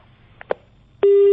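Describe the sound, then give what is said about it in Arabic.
A telephone busy tone sounds after a call line drops: a steady, loud electronic tone cuts in abruptly near the end, following a couple of faint clicks on an otherwise quiet line. “طيب يبدو انقطع الخط.”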